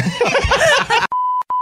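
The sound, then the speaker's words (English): A censor beep cuts off snickering laughter. The steady, high, flat tone breaks once with a brief gap before resuming, loud and alone. “Now we had to beep that.”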